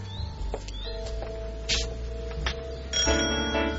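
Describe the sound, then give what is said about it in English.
A front-door doorbell rings with a short, bright, tonal chime that stands out near the end over a faint steady hum. “I punch the doorbell.”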